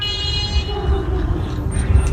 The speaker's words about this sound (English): Yeah, there was something going on because she's laying on the horn, though. That's her.